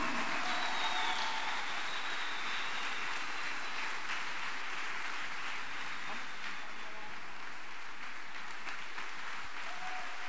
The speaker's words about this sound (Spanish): Póngase en pie y dele el mejor aplauso al Señor.